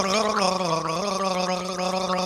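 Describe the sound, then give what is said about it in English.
A man gargles a melody, a continuous bubbling, warbling tone whose pitch shifts up and down as if singing a tune. “Marvel at the raw power of this, the greatest of all garglers gargling the hits in this multi-genre spanning album.”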